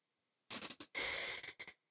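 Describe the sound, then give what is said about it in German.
A deep breath drawn in through the nose: a few quick airy sniffs lead into one long, hissing inhale, followed by two more short sniffs, quiet and with no talking. “Nimm einen tiefen Atemzug durch die Nase ein”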